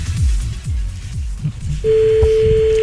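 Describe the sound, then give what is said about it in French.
A phone line after dialing: low, uneven rumbling noise, then a steady, unbroken ringing tone starts partway through and holds to the end. “Ça sonne.”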